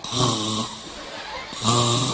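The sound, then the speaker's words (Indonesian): A person fakes snoring while pretending to be asleep: two loud, rasping, buzzy snores, each lasting about half a second, separated by a quieter breathy pause. “Ya pura-pura turu. Etok-etok asline ya ora turu. Dingorok-ngorokno.”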